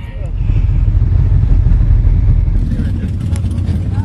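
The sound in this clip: Custom motorcycle engines at a bike event, a loud, throaty low rumble that drones steadily throughout with a dense, churning texture.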